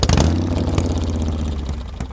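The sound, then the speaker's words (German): A fully loaded touring motorcycle's engine runs steadily for about two seconds, a continuous low, throaty rumble with a fairly even level and no voices. “Vom Kap Arkona aus fährt er auf seinem vollbepackten Motorrad durch Deutschland.”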